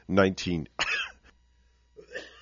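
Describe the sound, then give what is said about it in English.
A person coughs and clears their throat in a quick run of three rough, throaty bursts, then a softer one follows after a short pause. “No, just coughing away here.”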